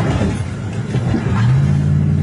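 A car engine revs hard as the driver floors it to escape through flames in a mountain neighborhood. A low, steady rumble builds into a rising engine tone during the second half.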